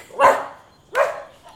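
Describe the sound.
A small dog barks twice in sharp bursts about three-quarters of a second apart, then gives a faint, short third yip. There is no talk.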